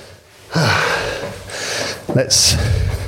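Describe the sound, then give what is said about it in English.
Heavy, labored breathing from someone out of breath after climbing many flights of stairs up to an office, with a few loud, rasping gasps and breaths, one sharper intake near the end. “many, many stairs to get up to my office here. And no doubt you will hear me getting out of breath live on the podcast.”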